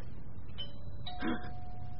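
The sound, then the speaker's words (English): A front doorbell rings with a faint electronic chime of sustained tones over a steady low rumble. “Is that the doorbell? What's that? The front doorbell. Perhaps there's somebody at the door.”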